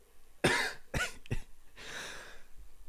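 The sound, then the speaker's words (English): A person coughs three sharp times in quick succession, then lets out a softer, breathy rasp. The sounds are fairly quiet and heard alone, with no talk. “he says, coughing.”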